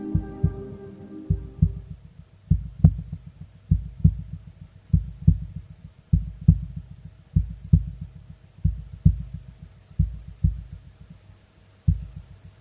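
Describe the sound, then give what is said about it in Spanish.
Heartbeat sound effect for a radio promo: many low, muffled double thumps in a steady, even rhythm, opening over a brief sustained tonal chord that soon fades, leaving the pulse alone. “¿Qué hay después del último latido?”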